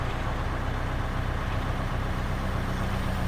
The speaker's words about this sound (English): I hate that motor noise.